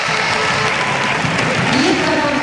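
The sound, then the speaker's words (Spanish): Stadium crowd applause as Cádiz player Valle is substituted off during a football match: a loud, steady wash of clapping and crowd noise that holds level throughout. “Y este es el aplauso en Valle. Nos gusta.”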